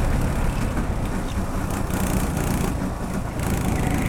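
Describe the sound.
A race car engine roars in a racing video game as the car is pushed hard into a corner, a steady, loud, rough drone with a brief dip partway through.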